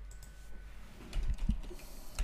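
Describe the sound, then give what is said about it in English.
A few faint computer clicks, from keys or a mouse, tap out alone over a low background hum. “Click record. That seems to be recording. I'm going to click live.”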